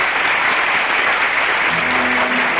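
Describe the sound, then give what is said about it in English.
Theater audience at the Little Theater on Times Square giving an ovation after the final act of a play, with thick, loud, unbroken applause that holds steady from start to finish. “The audience is giving them an ovation.”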